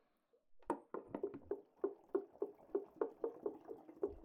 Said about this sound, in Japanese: 泡がポコポコってするんです。いい音じゃないですか？